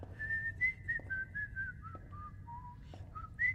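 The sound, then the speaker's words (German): A person whistles a slow, wandering tune of held notes that step down in pitch through the middle and leap back up near the end. The whistling is moderately loud and sits over a low, steady hum. “Hör mit dem Gepfeife auf. Ich pfeife, wann ich will.”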